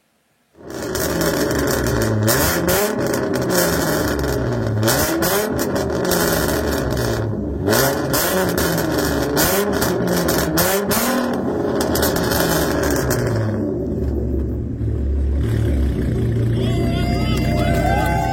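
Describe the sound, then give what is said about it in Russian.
A Mustang Shelby engine revs loudly and without pause, its deep rumbling pitch climbing and dropping in repeated waves at a festival held at a motorsport stadium. “в состоянии ответить Мустанг Шелби. У него все и всегда хорошо получается, даже молча, но со звуком он интереснее”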